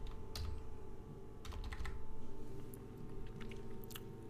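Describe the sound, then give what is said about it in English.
Typing a name on a computer keyboard: faint, irregular bursts of quick plastic key clicks with short pauses between clusters, heard alone. “I guess you gotta type in Wilson, I guess.”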